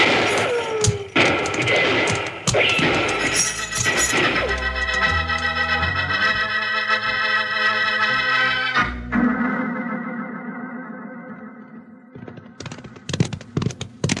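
Gunfire in a radio western as riders are pursued: a rapid burst of sharp shots and cracks, followed by a held musical chord that slowly fades before a few more sharp hits at the end.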